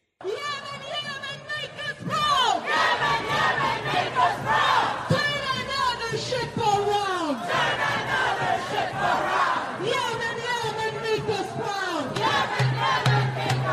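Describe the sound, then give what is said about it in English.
Protest crowd in a major city chanting and shouting: many voices yelling in rising and falling bursts, a continuous loud roar of massed shouting with no break. “That is just some of the sound of these vicious protests that are taking place in many major cities.”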